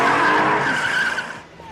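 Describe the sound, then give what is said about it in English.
Car tires screech and skid as the car speeds off through a parking lot, a loud continuous squeal with engine noise that eases off near the end. “gets in and speeds off through the parking lot.”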